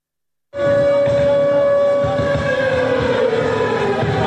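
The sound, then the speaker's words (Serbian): Air raid sirens mark the start of a charity concert for Ukraine in Belgrade, cutting in abruptly from silence. A loud, sustained wailing tone then holds steady, with a dense, rough texture around it. “Sirene za vazdušnu opasnost i pevačica obrnuta zastavom Ukrajine označile su početak humanitarnog koncerta u Beogradu.”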